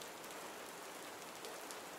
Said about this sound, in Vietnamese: Tới khi mưa đã nặng hạt, những giọt long lanh liên tục đánh thức những giác quan đang ngờ nghệch của cô.